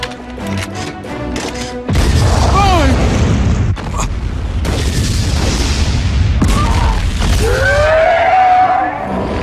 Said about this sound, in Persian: بمب ناپالمه. وای، کارشون رو زود شروع کردن.